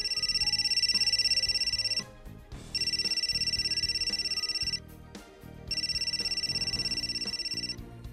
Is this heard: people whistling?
no